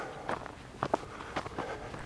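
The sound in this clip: Footsteps of a hiker on a walking trail, a few soft, uneven steps landing at irregular intervals against a quiet background, with no talking.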